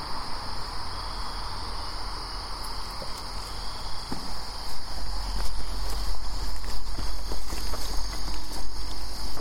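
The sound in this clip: Footsteps walk uphill outdoors near an old pond, many irregular steps that grow louder in the second half over a steady drone of chirping insects.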